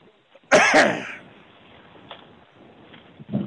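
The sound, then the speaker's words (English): A person coughs sharply in two quick bursts, like clearing the throat, then only a quiet background hiss remains. “I was trying to cough”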